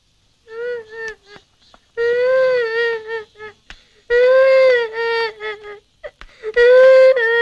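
A child cries and whimpers in several high-pitched, wavering wails broken by short pauses and catching breaths, loud and alone without other voices.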